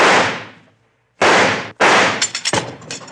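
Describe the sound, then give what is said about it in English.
Gunshots are fired to blow the handle off a weak-looking bank vault: three loud, sharp blasts, each ringing briefly, then several smaller metallic cracks. “Stand back. I think I can shoot that handle off.”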